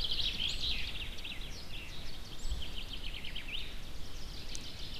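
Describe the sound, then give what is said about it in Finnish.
Common chaffinches singing in an old spruce forest beside a goshawk nest. Faint, high, repeated trilling song phrases of quick chirps run over a steady low background hiss. “Nyt täällä vanhassa kuusimetsässä, kanahaukan pesän vieressä, ei ole oikeastaan mitään muita lintuja kuin peippoja äänessä.”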